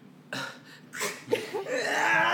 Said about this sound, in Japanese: しゃっくり止まらんし